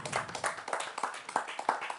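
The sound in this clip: An audience applauds after a prize is presented at a live show. The clapping is fairly faint, with many quick claps overlapping in a steady patter.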